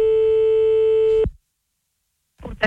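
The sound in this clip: A steady telephone tone after a hung-up call sounds alone for about a second before cutting off abruptly. Silence follows, then a short burst of other sound at the very end.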